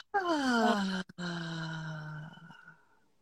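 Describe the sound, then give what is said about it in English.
A deep breath exhaled with sound: a voiced, groaning 'ahh' whose pitch slides down at first, breaks briefly, then resumes as a lower, steady tone that trails off into a breathy fade. “Another deep breath, and this time let it out with sound. Inhale. Okay. And exhale.”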